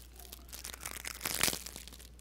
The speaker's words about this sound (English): Kit Kats. And if I can tear them open, I'll give you one.